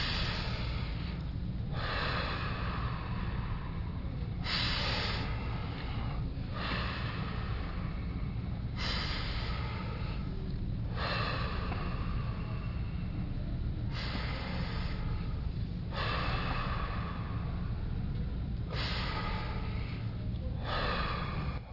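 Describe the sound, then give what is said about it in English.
Deep, rapid breathing during a guided breathing exercise: forceful breaths repeat in a steady rhythm, many in a row over a constant low background hum. “We'll concentrate on breathing in about twice as much as you would normally breathe. Okay, starting now. Kind of follow me.”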